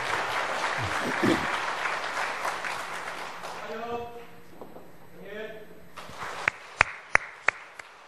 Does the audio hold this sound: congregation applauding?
yes